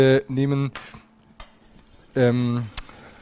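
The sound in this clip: A metal spoon clinks and scrapes against a container while guar gum powder is spooned into a sauce as a thickener, giving a few short, bright taps between quieter stretches.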